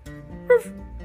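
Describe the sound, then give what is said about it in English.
A single short, high-pitched yip from a small dog, brief and moderately faint over a low, steady hum. “I definitely heard some little bark. It didn't sound like your dog, but there it is again.”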